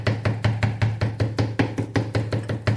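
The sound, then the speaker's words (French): A knife chops a shallot finely on a cutting board in a rapid, even series of many sharp taps, with a steady low hum underneath. “va faire un mouvement de haut en bas pour venir hacher mon échalote. Voilà, je veux entendre ce bruit-là dans vos cuisines”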